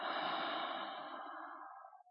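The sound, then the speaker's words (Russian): A deep breath during a throat-chakra breathing meditation, heard as one long, soft, breathy rush of air that slowly fades out, alone and without talk. “Итак, глубокий вдох. Выдох.”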